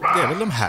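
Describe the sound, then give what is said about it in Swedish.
A roe deer barks with a hoarse, dog-like call near a home with many deer, one short bark whose pitch swoops up and down, while a person speaks briefly over it. “Jag reagerar varje gång för vi har mycket rådjur hemma. Så där. Man bara, är det någon hund som springer runt ute i skogen? Har någon av våra hundar dragit iväg? Nej då, men det är ju rådjur.”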